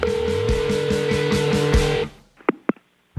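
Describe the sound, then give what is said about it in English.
A telephone voicemail tone: a buzzy, steady electronic tone pulses evenly for about two seconds, then cuts off and is followed by a couple of short blips. “It's time to check Adam's voicemail.”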